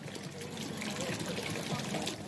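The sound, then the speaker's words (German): The Aare river flowing lazily through the town centre of Solothurn on a spring day, a continuous trickling, burbling wash of water at steady loudness. “So tönt es an einem schönen Frühlingstag in Solothurn gerade an der Aare, wo an diesem Tag ein bisschen faul durchs Stadtzentrum fließt.”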